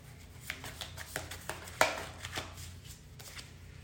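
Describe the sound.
A tarot card is drawn from the deck: faint papery taps and shuffles, with one sharper snap in the middle. No talk.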